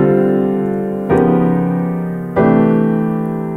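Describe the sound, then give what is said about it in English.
Three sustained chords, D minor 7, D flat 7 with an added sharp 11, and C major 7, form a ii–V–I using a tritone substitution. Each is struck cleanly and left to ring and slowly decay before the next, with no voices. “So here's how that would sound. This is D minor 7, D flat 7, C major 7.”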